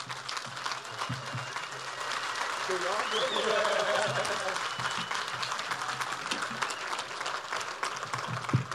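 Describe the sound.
Audience applause welcomes a speaker to the stage in Madison, a dense, steady clapping that swells through the middle and carries on throughout, with scattered voices mixed into the crowd noise.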